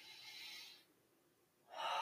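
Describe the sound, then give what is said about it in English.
Deep breathing: two long, airy, breathy rushes, a strong one at the start and another at the end, with near-silence between them. No voices accompany them. “Let's take a deep breath there.”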